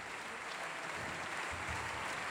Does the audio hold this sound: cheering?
yes